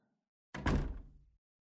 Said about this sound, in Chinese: 还不快把门关上进来